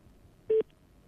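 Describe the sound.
A single short telephone tone as a call is placed to a mobile phone line: one brief, steady mid-pitched beep over low background hiss.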